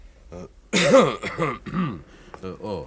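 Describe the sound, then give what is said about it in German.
A man coughs and clears his throat in a few rough, voiced hacks after a sharp, loud opening burst. The bouts are uneven in spacing and no other sounds are heard. “Und auf einmal, da muss ich husten.”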